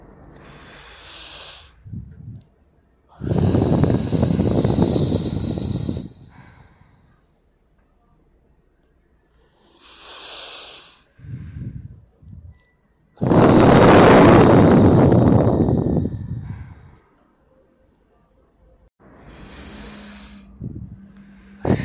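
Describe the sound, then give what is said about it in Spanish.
Slow, deep breathing in a guided relaxation exercise, air drawn into the abdomen and released slowly: two long, loud, airy breaths, with shorter and quieter breath sounds around them. “inspirando lentamente y llevando el aire a tu abdomen y exhalando lentamente.”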